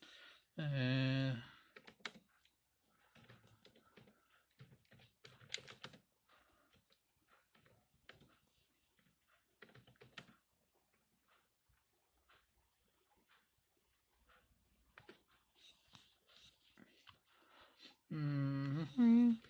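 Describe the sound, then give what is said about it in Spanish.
Soft typing on a keyboard, with sparse, faint key clicks scattered through a long quiet stretch, while a voice speaks briefly at the beginning and the end. “Perdón que les deje en silencio, pero perdón, estoy escribiendo y no puedo escribir y ver así.”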